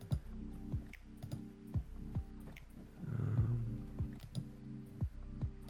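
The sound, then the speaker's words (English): Computer mouse clicks during an online tabletop role-playing game session: many short, faint clicks land at irregular intervals over a low, steady tonal hum, with a softer rushing burst midway. “I got to click that roll button on the bottom.”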